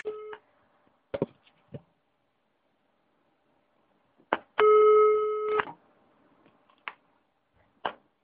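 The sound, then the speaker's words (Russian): Telephone sounds during dialling for a prank call to the police: a few sharp clicks and short tone bursts, then a steady electronic beep lasting about a second, separated by silence, with no talking. “Сейчас, Бет, милицию на Петровку позвоню, чтоб тебя задержали.”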